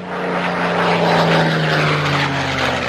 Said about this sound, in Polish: Samolot historyczny Harvard. Takie samoloty były wykorzystywane do szkolenia, zaawansowanego szkolenia podczas II wojny światowej przez Brytyjczyków, Kanadyjczyków i również szkolili się na tym polscy lotnicy.